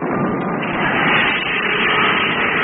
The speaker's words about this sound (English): Turn on the motor and I'll take you down. Stand by for firing. Contact!